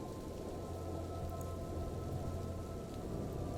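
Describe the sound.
Heavy rain falls in a dense, steady hiss that keeps an even level from start to finish, with no voices.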